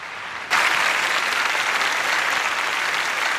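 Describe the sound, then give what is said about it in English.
Applause from a large crowd gathered outside an abbey during a funeral, bursting in abruptly after a near-silent start and holding as a loud, dense, steady clatter of clapping to the end. “Earl Spencer steps from the podium while outside people applaud. The Queen is stirred by the applause from outside the Abbey.”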